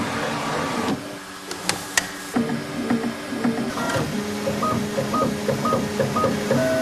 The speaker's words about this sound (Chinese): 这个校准，然后如果说有偏差的话，这里边的话还可以进行调节，然后就可以打印出来这个佛头。